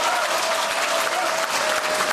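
Dense, continuous applause from a large audience of around 1,600 to 1,700 people in an amphitheatre, welcoming a rapper on stage. Steady, loud clapping fills the whole stretch without a break.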